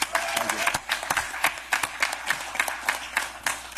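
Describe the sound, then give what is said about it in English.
Audience applause at a political rally for a governor who has given an endorsement: a steady patter of many hands clapping, with sharp individual claps standing out, mixed with crowd noise. “If y'all don't mind, I'd like to applaud him again.”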